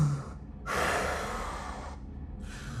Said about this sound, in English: You hear a almost a sigh, like a breath of air